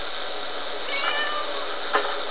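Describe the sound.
A cat gives a couple of soft, short meows over a steady background hiss, the first a drawn-out tonal call and the second a brief chirp shortly after.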